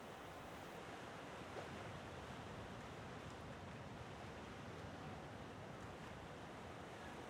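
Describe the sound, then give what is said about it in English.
A bitter wind blows as a continuous, even rushing hiss with a surf-like roar underneath, holding a steady loudness throughout with no breaks and no voices. “And the bitter wind picks up. It bites at your exposed skin,”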